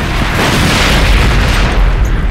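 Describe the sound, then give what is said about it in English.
A loud explosion tears a gunship apart with a dense, roaring blast that stays at full strength throughout, with no breaks or separate bangs. “It was the interference that saved them from the explosion that mangled and consumed the gunship.”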